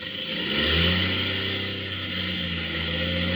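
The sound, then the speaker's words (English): Aircraft motors running rough drone steadily in a low hum with layered harmonics that waver and shift in pitch, with no voices over them. “The motors. Sounds bad. If I can just get her to catch again.”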